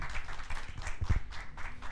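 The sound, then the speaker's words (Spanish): A church audience applauds with many hands clapping together in a loud, steady, rhythmic pulse throughout. “¿Le das un aplauso al Señor en esta mañana?”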